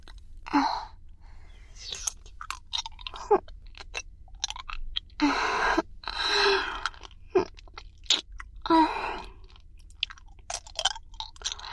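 Wet sucking, clicking and smacking mouth sounds come from a hard candy being licked and rolled in the mouth. Many irregular crunching bursts occur, with no talking.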